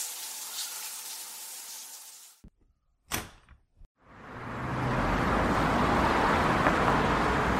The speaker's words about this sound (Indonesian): Kendaraan di jalan memainkan lagu yang selalu menjadi ciri khas sebuah pagi.